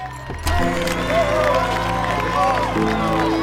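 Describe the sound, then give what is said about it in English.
Excited crowd cheering as a man steps out and salutes them, a loud swell of shouts, whoops and overlapping voices that begins abruptly and holds strong throughout. “Brody soon follows and salutes the excited crowd.”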